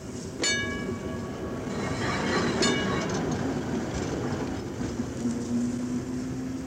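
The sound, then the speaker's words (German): Rail rumble of a tram railcar moving slowly out of a city tram depot, steady and dense, with a couple of sharp clacks early on and a thin metallic wheel squeal rising into hearing near the end. “Über dem in heißer Mittagssonne liegenden Betriebshof der städtischen Straßenbahn fährt langsam der fahrplanmäßige Triebwagen des großen Rings, holt sich im Depot seinen Anhänger”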